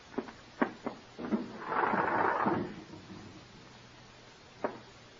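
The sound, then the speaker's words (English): A window being opened: a few soft knocks, then a scraping slide lasting over a second, and later one short click, all quiet and with no talk. “Go ahead, open the window.”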